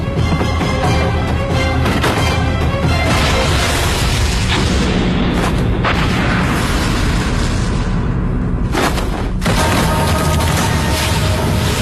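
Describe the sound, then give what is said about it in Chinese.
Car explosion in a film scene on a cliff: a loud, dense roar of blast with splintering, crackling debris and several sharp cracks, sustained for about twelve seconds without talk. “停车，下车，车要爆炸了”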